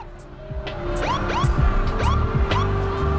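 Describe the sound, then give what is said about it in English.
A car pulls away, a steady engine drone running throughout and growing slightly louder, with several short rising chirps above it. “Monroe waves to Grimes before getting in the car John's meant to be in and pulling away”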